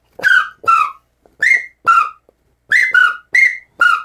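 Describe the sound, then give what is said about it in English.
A person whistles by mouth to imitate a pintail drake's call. Eight loud, short, clear whistled notes come in loose pairs with brief gaps, and no other sound is heard. “Sounds just like a sprig. It's unbelievable. And you can do it loud.”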